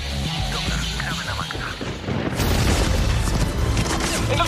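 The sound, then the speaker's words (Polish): Gunfire in a video game: a dense, continuous barrage of booms and crashing impacts, rising to a louder, harsher burst about halfway through and staying intense to the end. “Przecież strzela! Dobra, masz karabin, strzelaj.”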